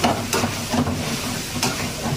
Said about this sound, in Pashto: په یو وار څو کړایانې په نغرو ایښودل شوي دي سره رومیان غوښه او شین مرچکی په کړایي کې ښکاري خو کله کله چې په بل اړخ اړوي غوړي اور واخلي او لمبې اوچتې شي